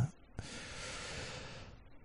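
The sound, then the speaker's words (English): A man gives a long, breathy yawn: a soft rushing exhale drawn out for over a second that slowly fades away, alone with no talk. “I'm sorry, I'm yawning again.”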